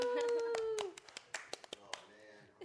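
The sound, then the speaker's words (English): A handful of people clap to welcome a guest arriving on a chat show. A drawn-out cheering 'woo' falls in pitch, then sharp, irregular single claps follow, spaced apart, alongside quieter talk. “A round of applause.”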